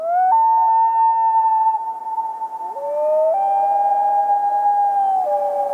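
A common loon gives its wail call: a loud, sustained, siren-like tone that steps up, holds, dips, then climbs and drops again in pitch, heard alone.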